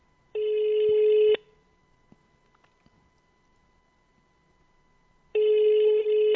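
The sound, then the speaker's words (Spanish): A telephone rings on an outgoing call: two long, steady electronic ring bursts, each about a second, separated by roughly four seconds of near silence. “Dejémoslo escuchar, está timbrando.”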